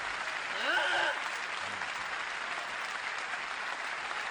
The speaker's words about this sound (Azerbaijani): Təşəkkür! Alqışlarınıza qurban!